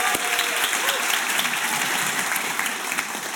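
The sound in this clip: Calvary Church audience applauding after an amen, with dense, steady clapping and a few cheering voices mixed in, loud and continuous throughout.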